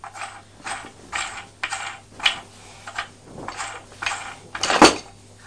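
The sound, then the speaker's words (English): A toy fire engine's hose reel turns round with a clicking, ratcheting mechanism. It comes as a series of short rattling bursts in an uneven rhythm, and the last burst is the loudest. “Is that the hose pipe that's going round and round? Putting it in that slot.”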